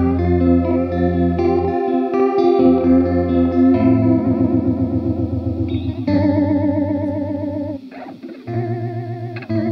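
A chord rings out through an effects unit, loud and sustained, with a warbling chorus wobble and some distortion, shifting to new notes a few times before a sharp break near the end.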